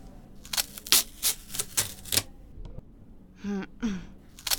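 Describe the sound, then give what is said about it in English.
Duct tape pulled off in a quick series of sharp, noisy ripping bursts, followed by a couple of brief voiced breaths. “I'll be nice and get rid of the duct tape. Hold still.”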